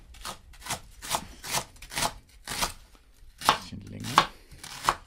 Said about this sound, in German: den Porree mal so in mittelgroße Stücke. Man kann die Schärfe des Messers richtig hören